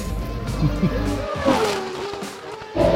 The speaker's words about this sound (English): You can hear there's still some racing going on.